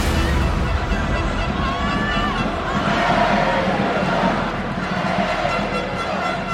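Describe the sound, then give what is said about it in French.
Dense, steady crowd roar from football supporters in a stadium during a Coupe de France match between Châteauroux and Paris Saint-Germain. The noise stays loud and continuous, with faint chanted tones rising within it. “Les supporters se lèvent comme un seul homme pour acclamer cette action de jeu.”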